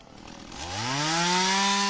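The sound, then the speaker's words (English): A chainsaw revs up while cutting in bushland during a search, its motor whine climbing steadily in pitch and then holding a loud, even, buzzing drone to the end. “Armed with shovels, rakes and chainsaws, a team of citizen searchers are working their way through bushland about 300 kilometres south of Perth”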